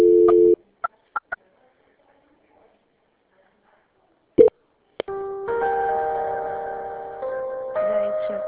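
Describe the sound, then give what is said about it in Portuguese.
A call transfer starts with a tone and a few short beeps and clicks, then a pause. Telephone hold music follows, a thin electronic melody of sustained notes that plays on to the end. “É possível que agora que eu tô conseguindo falar com o homem, a ligação tá tocando a música pra São Paulo atender?”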